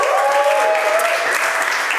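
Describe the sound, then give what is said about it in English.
Applause and cheering erupt for a church's creative team: dense, loud, steady clapping that holds for the whole moment, with a sustained whoop rising above it early on. “Not only do we have an incredible creative team who put together trailers like that, round of applause for them, whoop, cheer.”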